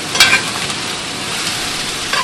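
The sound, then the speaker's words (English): Red onions frying in a restaurant kitchen give a steady, bright sizzle throughout, with a couple of brief stirring clatters near the start and end. “Inside Lombardo's kitchen, the smell of frying red onions filled the air”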